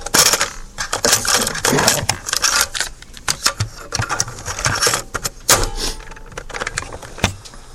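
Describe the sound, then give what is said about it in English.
A cassette tape being turned over, heard as a busy run of sharp plastic clicks, clacks and rattles of handling, loud and alone. “If you'll be patient, I'm going to turn the tape over here.”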